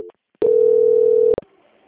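A single steady, mid-pitched telephone line tone sounds during a call transfer, holding for about a second. Short clicks mark where it starts and stops.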